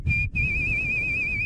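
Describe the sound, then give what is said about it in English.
A person whistles one sustained high note with heavy, wavering vibrato. After a brief break near the start, the tone resumes and wobbles steadily to the end over a low background rumble. “It also says that you're genetically prone to over vibrato while whistling. Do you mind whistling for us?”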